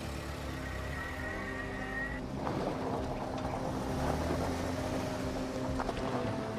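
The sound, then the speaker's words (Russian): A car's engine and road noise form a steady, fairly faint drone as it is driven with passengers aboard. The sound holds even with no clear changes. “Андрей сел за руль авто. Кира и Настя сзади.”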